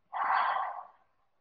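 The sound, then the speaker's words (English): A single big audible exhale during guided breathing, a breathy, airy whoosh that starts abruptly, holds for most of a second, then tapers off into silence. “And we'll take a big inhale, filling up those lungs. Big audible exhale, let the breath go.”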